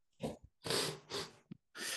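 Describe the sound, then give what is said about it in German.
Someone with a pollen allergy sniffles repeatedly, making a few quick, wet nasal sniffs and snorts in short bursts with brief gaps between them. The sounds are quiet and close, with no talking over them. “Ach, Entschuldigung, ein bisschen mit Polle zu tun, deswegen bin ich am Schniefen.”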